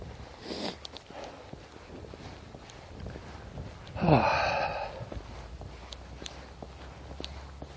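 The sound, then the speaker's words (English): A prairie dog gives a warning call in the morning: one sharp, downward-sliding chirp rises out of steady wind noise and footsteps, louder than the surrounding rustle. “The prairie dogs are having some warning sounds this morning.”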